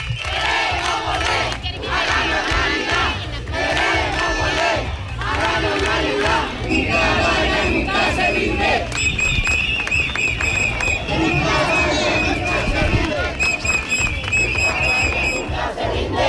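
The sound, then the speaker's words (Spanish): Protest chants from a crowd marching through neighbourhoods of Ceuta against plans for an asylum space in a former flour factory: many voices chanting loudly and rhythmically in repeated phrases, with high tonal calls over the later part. “Estos son algunos de los cánticos que se escuchan durante todo el recorrido.”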